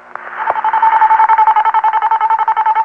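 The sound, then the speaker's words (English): A French telephone network call-progress tone plays while a call connects: a steady mid-pitched tone with a rapid, regular pulsing flutter, loud and alone throughout. “In France, after you've dialed and your call is going through the French network, you'll hear this tone.”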